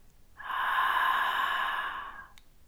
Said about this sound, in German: Einatmen mit geöffnetem Mund. Und jetzt atme genauso aus. Lass die Enge hinten im Kehlkopf, als würdest du flüstern wollen.